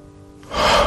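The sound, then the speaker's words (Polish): A deep breath, heard as one loud airy rush of air that swells after a quiet start and holds steady, with no talk. “Nie, to taki był taki głęboki wdech i wydech”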